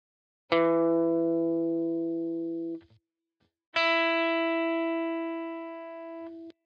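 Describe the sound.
Two sustained guitar notes, each the fifth of a chord fretted at a different position on the neck. Each rings clearly for over two seconds and then stops, with a brief silent gap between the first note and the second.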